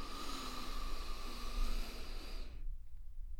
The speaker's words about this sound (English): deep breathe in all the love and the light of the universe